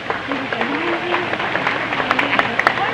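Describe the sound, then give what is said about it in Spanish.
Scattered clapping for a speaker at a Spanish-language youth justice gathering. A voice is heard early, then the claps sharpen into several distinct, crisp hand claps toward the end over a low murmur. “Un aplauso para el compañero.”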